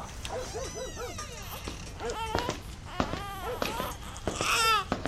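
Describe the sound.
A baby girl cries in short, rising and falling wails with sharp yelping bursts, while adult voices come and go around her.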